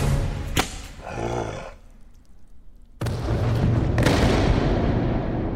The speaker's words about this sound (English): Nice shot! Yahoo!